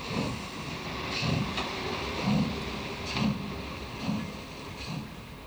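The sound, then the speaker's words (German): A diesel locomotive pulling a special train departs from Neumünster toward Ascheberg on its last run over the line: a steady low rumble with recurring heavy thumps about once a second, fairly faint overall. “Heute allerdings fahren die D-Loks auch zum letzten Mal über diese Gleise,”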